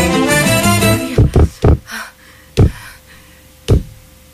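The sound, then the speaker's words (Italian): Knocking on a door in an Italian radio play: after a brief tonal passage fades, several sharp knocks come in a quick cluster, then two more spaced well apart. “Bussi, t'apro, porti un fagottino profumato di prima colazione sotto il braccio”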